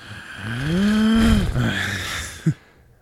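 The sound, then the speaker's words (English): A dinosaur's breathing sound effect, made from a man's breathing mixed with other noises, gives a deep, groaning, moo-like tonal exhale that swells and fades, then ends with one short, sharp burst. “And I guess the sound effect of it breathing was some other guy breathing with mixing other noises.”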